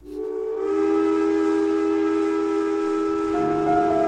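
A train whistle at a railway station gives a steady, sustained chord-like tone that holds loud throughout, over a low rumble that drops away near the end.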